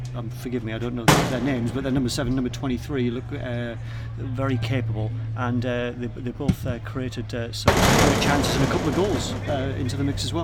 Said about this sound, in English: Yeah, that's the sound of the substitutes banging on the advertising hoardings there. Firing at us. Firing us, because we're standing right behind the goal at the moment.